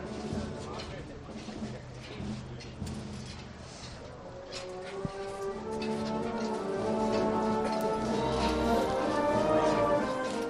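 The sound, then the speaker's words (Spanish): Metallic tinkling of the canopy poles on a Holy Week procession float bearing the Virgin, a steady scatter of light, irregular jingles heard under voices, with a fuller, steadier background sound swelling through the second half. “y ese sonido del tintineo de los varales que completan esta escena.”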